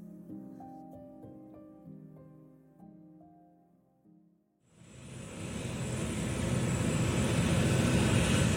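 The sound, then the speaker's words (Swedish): A passenger jet airliner on the Germanwings flight takes off from Barcelona airport, its engines a broad roar that starts abruptly and builds steadily louder. A few seconds of soft melodic music play before the engine noise begins. “Germanwings flight 9525 lyfter från Barcelona flygplats.”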